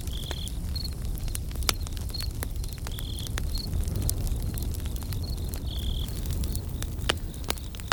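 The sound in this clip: Crickets chirp steadily at night around a campfire on a camping trip, forming a quiet, continuous trill with sharp, sporadic clicks scattered throughout.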